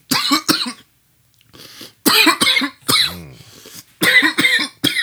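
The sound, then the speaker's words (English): Repeated coughing from someone whose drink went down the wrong pipe: several harsh, fairly loud fits of coughs separated by short pauses, with raspy throat-clearing mixed in. “Excuse me. The drink went down the wrong pipe.”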